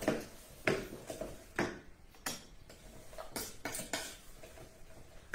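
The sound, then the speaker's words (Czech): Spoon stirring molasses syrup in a container, giving a faint series of light clinks and scrapes at irregular intervals, alone without talk. “A to trochu zamíchám.”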